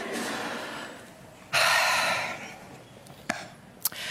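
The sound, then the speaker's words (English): A big deep breath: a sudden loud rush of air lasting about a second that gradually trails off, with a couple of faint clicks afterward. “I'm just going to take a big, deep breath.”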